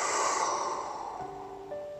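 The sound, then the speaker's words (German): A slow breath released through the open mouth during a guided meditation: a soft, airy rush that gradually fades over about a second and a half, with faint steady musical tones entering toward the end. “Und nochmal ein durch die Nase halten und aus durch den geöffneten Mund.”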